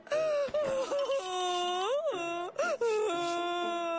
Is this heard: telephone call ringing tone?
no